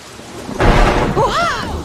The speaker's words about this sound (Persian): داره بارون میاد، گربه و سگا بیرونن، امیدوارم سالم برگردن.